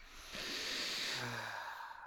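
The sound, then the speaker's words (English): A single long, deep breath, a soft, airy rush that swells and holds for about a second before trailing off quietly, with no speech. “Let's take a deep breath.”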